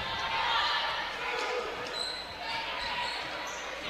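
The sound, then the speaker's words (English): A basketball being dribbled during a game makes a few dull bounces against a steady wash of crowd noise and murmur. “Martin's going to dribble to the left side of the paint.”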